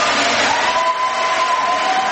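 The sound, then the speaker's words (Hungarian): A church audience claps, a dense and sustained wash of many hands that stays loud and even throughout, with crowd noise mixed in. “Tapsoljuk meg nagyon az Urat.”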